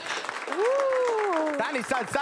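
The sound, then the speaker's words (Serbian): Audience applause inside a tavern, a dense patter of many claps running steadily beneath a prominent speaking voice. “Dajte jedan aplauz za ove što su vani.”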